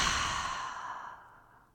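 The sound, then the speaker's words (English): A long, breathy exhale during a guided relaxation breathing exercise, hissy and loud at first, then fading gradually over nearly two seconds. “take a deep expansive inhale through your nose. Open up, exhale, side out.”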